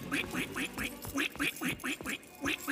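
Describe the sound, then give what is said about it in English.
A voice imitates a duck, quacking many times in a steady, bouncy rhythm with nasal, clipped calls at moderate loudness. “I can speak many tongues of Centopia. I can speak dragon, duck,”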